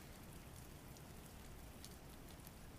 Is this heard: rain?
yes